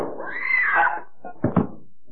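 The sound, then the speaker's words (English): A doorknob turning slowly in a radio drama: a drawn-out squeaky creak that rises and then falls in pitch, followed by a short pause and a couple of dull knocks. “The doorknob turns slowly, then...”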